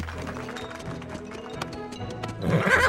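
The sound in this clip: A horse's hooves beat out a trot during a dressage movement, many even clip-clops at a fairly soft level in a steady rhythm. A louder, fuller burst of sound rises near the end.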